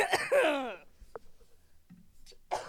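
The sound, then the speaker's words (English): Someone clears their throat once, a short voiced rasp at the start, followed by near silence with a few faint small noises. “hold on, I gotta clear my throat”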